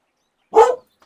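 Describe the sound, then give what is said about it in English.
A dog barks once, a single loud, full bark that stands alone against silence with no voices around it. “Shut up, dog.”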